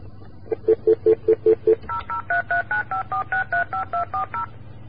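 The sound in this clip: Touch-tone telephone dialing after a dropped call: a rapid, evenly spaced run of short beeps, first a stretch of lower tones and then a longer series of higher-pitched ones, loud and clear with no voices.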